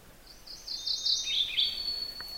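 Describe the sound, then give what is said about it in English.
A mourning warbler sings in brushy ground under an overstory of quaking aspen: one short, high, rapid warbled phrase, fairly faint, rising out of quiet background hiss with no other sounds. “That's the sound of a morning warbler.”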